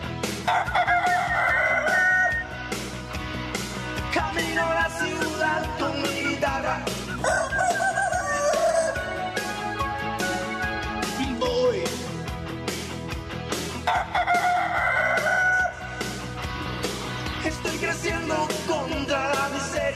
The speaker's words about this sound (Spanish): todos los miércoles en este programa se repite el gallo